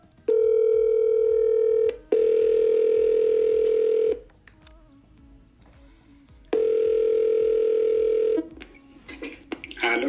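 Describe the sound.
A telephone call rings out with three long, steady ringback tones, the first two almost back to back. A quiet pause follows, then the third tone, with faint noise at the end.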